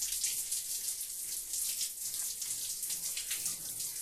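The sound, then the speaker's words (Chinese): Shower water runs while someone bathes, a steady hissing spray at a constant moderate level with no talking. “我在洗澡，等会出去再说。”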